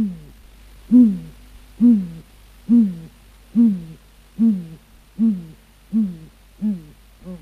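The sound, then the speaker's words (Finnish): A great grey owl gives nine deep, soft hoots on an April night, spaced at an even, unhurried rhythm, each a low, breathy note that swells and then fades. “jos väitän, että lapinpöllön puhallus on huhtikuisen yön kaunein ääni? Lapinpöllön ääni ei kanna kauas.”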